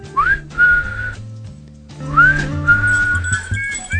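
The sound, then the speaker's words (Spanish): A group of people whistling together, with several bright overlapping tones, quick upward glides and held notes that start, pause briefly, then return as a fuller layered chorus. “Ahí están, los atorrantes han llegado otra vez. El coro estable de Angelitos Silbadores, como siempre, aquí sonando.”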